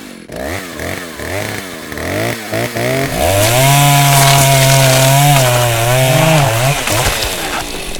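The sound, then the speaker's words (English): Chainsaw engine revving in a few short bursts, then settling into a long, loud, sustained whining roar with slight pitch wobbles before easing off near the end. “Giant mechanisms pounding. Hangman gallows. Chainsaws.”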